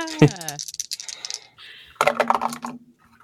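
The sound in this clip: Dice rolling during a tabletop game, with bursts of quick rattling, clicking taps as the dice tumble, while people talk over them.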